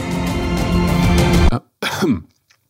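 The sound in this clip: A person coughs and clears their throat after a bug flies into their mouth: a long rasping, throaty cough, then a short pause and one more brief cough.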